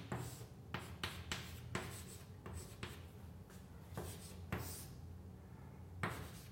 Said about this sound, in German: und das schreibe ich jetzt noch mal anders hin, a durch Pi